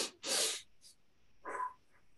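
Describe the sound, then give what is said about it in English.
Deep breathing: a full inhale through the nose, then a complete, forceful exhale through the mouth that squeezes the lungs empty. Two loud airy rushes are separated by a short pause, and the exhale is lower and softer than the inhale. “you're going to completely fill your lungs when you do that. And then a complete exhale with your mouth, so much so that you can feel your lungs kind of squeeze all the air out, right? So it's going to sound like this.”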